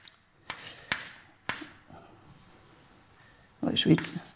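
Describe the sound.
Handwriting while the letter W is written out for a maths decomposition: a few sharp pen taps, then a stretch of soft scratching strokes, before a voice speaks at the end.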